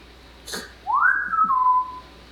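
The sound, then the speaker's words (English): A person whistles a single phrase that swoops upward and then glides down into a long, steady held note. A brief soft noise comes just before the whistle, and no one speaks. “I would like whistle and then I would hear him like copying my whistle”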